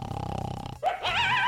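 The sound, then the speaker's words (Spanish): A dog lying in a bed growls at night. A low, pulsing rumble gives way after a brief pause to a higher, wavering snarl. “Ahí lo tiene el perro por un lado.”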